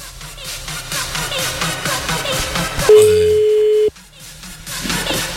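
A telephone ringback tone sounds while calling someone: a single steady, pure mid-pitched beep of about a second, with other background sound before and after it.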